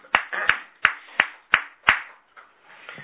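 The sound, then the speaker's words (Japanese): Hand claps mark a birthday celebration for a worshipper at a morning service. Six sharp, loud claps fall in an even rhythm, followed by a couple of fainter ones. “盛大な拍手でお祝いをし、”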